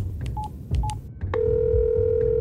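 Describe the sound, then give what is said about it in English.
Two short keypad beeps sound as a telephone number is dialed, followed by a steady continuous line tone that holds to the end over a low background hum. “I dialed the number for him.”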